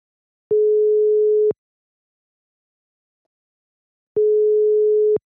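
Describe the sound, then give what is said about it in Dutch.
Telephone ringing tone while a call is being placed: two steady, mid-pitched beeps, each about one second long, separated by a long silence, with nothing else heard. “ik ga Julia bellen”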